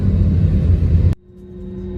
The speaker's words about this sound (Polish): A teraz jedziemy na pas.